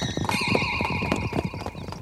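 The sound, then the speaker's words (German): Stallions trying to break through a gate neigh and stamp, a high sustained whinny rising over a busy clatter of hoof thuds and knocks, loud and continuous. “Pass auf, die Hengste versuchen, durch das Gatter zu brechen.”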